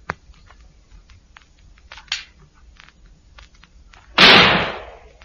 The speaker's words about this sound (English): Fire your gun out of the window. Just fire it in the air.